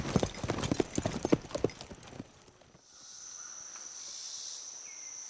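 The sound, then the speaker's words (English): Horse hooves clip-clop as a rider heads off toward a cattle herd, a quick, uneven run of hoofbeats that stops. A steady chirring of crickets is left behind. “Jedediah gave one last glance toward Jason and Ward's diminishing figures, then rode off to fill in for Ward with the herd.”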